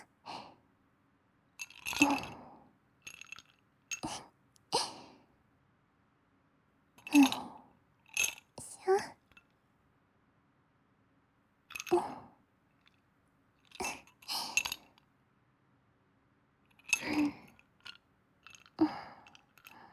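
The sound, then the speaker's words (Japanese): Ice cubes are moved from one glass into another, making faint clinks and rattles in many short, scattered bursts separated by quiet gaps. “グラスを2つ用意して、氷を移動させる音だよ。”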